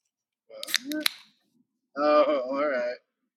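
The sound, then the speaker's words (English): A Faygo soda bottle is opened with a few quick sharp cracks and a short fizzy burst, followed after a brief pause by a voice speaking. “I'm opening a Faygo. Oh, and, yeah, you're not even doing bangs, dude. You're doing Faygos well, now.”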